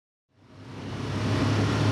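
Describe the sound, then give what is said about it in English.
A UTV drives down a road, its engine rumble swelling from silence into a steady, fairly quiet drone. “He's driving a UTV down one of the roads that was blocked by the Lac du Flambeau tribe last year.”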